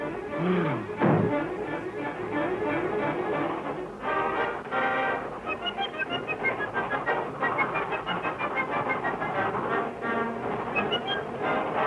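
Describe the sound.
Steam locomotive speeding out of the station yard, a rhythmic chugging clatter that keeps a quick, driving pace, with bright tonal notes ringing above it through the latter part.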